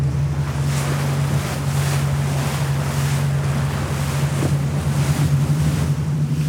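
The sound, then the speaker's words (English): Choppy, confused sea waves and strong wind around a small boat heading into the wind: a continuous rushing roar of wind and water with recurring surges over a steady low engine drone. “Getting choppy out here and we are heading straight into the wind. I have to say, Peter is doing a remarkably good job of smoothing this out. Because it's a, what you might describe as a confused sea.”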